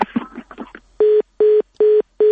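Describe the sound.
Telephone tones after a call is hung up: a short burst of voices gives way to four evenly spaced, loud, steady beeps of the same pitch, the last one cut off.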